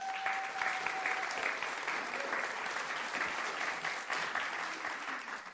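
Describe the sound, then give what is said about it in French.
A church audience applauds in praise, a continuous even wash of many hands clapping at moderate loudness, with a brief steady tone sounding over the first part. “On va acclamer le nom de Jésus.”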